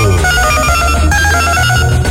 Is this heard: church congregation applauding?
no